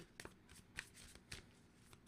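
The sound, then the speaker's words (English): Shuffling a deck of tarot cards that tend to stick together: soft, continuous papery riffling, quiet overall, broken by a few sharper flicking bursts. “So I'm gonna shuffle this in because these cards are,”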